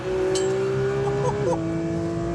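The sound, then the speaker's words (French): Car engine screaming at about 9000 rpm on a circuit with a chicane, a loud, steady high-pitched drone that dips sharply in pitch as the driver shifts into fourth gear, then holds at the lower note. “Allez, 9000 tours, je passe la 4.”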